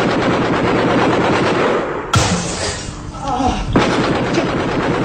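Sustained automatic gunfire during an armed attack in a snowy town, a loud, continuous rattle of rapid shots with a sharp bang and a shifting, thinner stretch midway before the heavy firing resumes.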